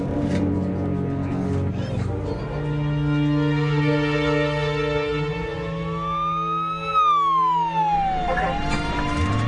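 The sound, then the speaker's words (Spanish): An ambulance siren wails, its tone sweeping up and then down in a slow, loud glide that rides over a dense, sustained drone of steady low tones. “una ambulancia llegó hasta su hogar”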